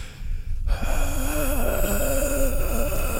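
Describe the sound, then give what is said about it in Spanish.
A voice imitates a nun's heavy breathing, giving breathy, gasping sounds with a wavering, moan-like pitch. It begins after a brief quiet moment and carries on steadily to the end. “Ay, así respira la monja.”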